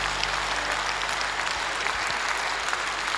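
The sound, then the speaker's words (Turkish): Audience applause at a singing performance, with many hands clapping in a thick, continuous wash that holds at a steady level without pause. “Alkışlarımız, alkışlarımız abiler.”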